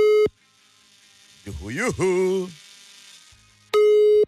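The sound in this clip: Telephone tones after a number is dialed to place a call, heard as two loud, steady, mid-pitched beeps at the start and end, with a sliding, voice-like vocal sound in the quiet stretch between them.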